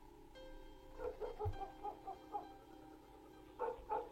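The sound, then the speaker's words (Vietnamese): A dog barks in the distance, giving faint, short yaps and whimpering yips in two bursts separated by a brief pause. The sound is quiet, with no voices. “Có tiếng chó cắn ma nhấm nha nhấm nhẳng ở đâu đó vang lên.”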